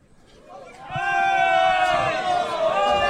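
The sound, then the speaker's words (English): A crowd clamors, with a loud roar of many voices that swells after about a second and holds at full strength. Shouts and babble are mixed into the roar. “The crowd is clamoring over each other.”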